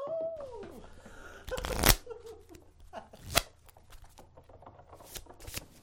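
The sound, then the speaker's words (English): Playing cards being shuffled and dealt: two loud riffle shuffles stand out among many small flicks and slaps of cards, with no talk. “Shall we play another round? Yes, yes. Best 2 out of 3. You deal this time.”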